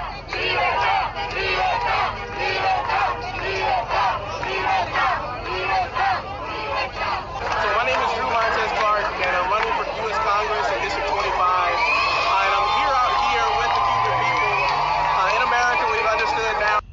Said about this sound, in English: what you're hearing is a rally, a Cuban rally in Florida